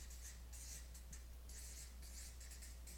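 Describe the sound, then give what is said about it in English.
A marker scratches across a board as a word is written, several short, faint, hissing strokes in quick succession over a low steady hum. “So what I'll do is I'll write on the board. Here we go. Maybe I'll put confident.”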